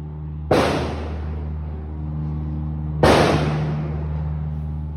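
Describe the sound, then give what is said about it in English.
Gunfire during a militant attack: two loud, sharp blasts, well spaced, each with a long decaying tail, over a steady low hum. “That's when a hell of a lot of shooting started.”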